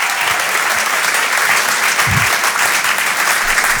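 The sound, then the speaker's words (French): Audience applause fills a comedy club, a dense, steady wash of many hands clapping that stays loud throughout. “Mesdames et messieurs, faites du bruit pour Guillaume”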